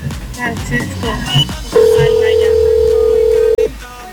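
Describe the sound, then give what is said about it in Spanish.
A telephone being dialed to place a call during a radio gas giveaway. After a stretch of lively talk, a steady mid-pitched line tone holds for nearly two seconds, cuts off briefly, then sounds again. “Ya le van a marcar en ese momento, así que muy atentos”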